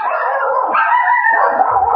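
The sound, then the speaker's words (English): Dogs in a fight give a loud, continuous whining howl that wavers in pitch and barely breaks across the whole two seconds. “Tell that dog fight to calm down.”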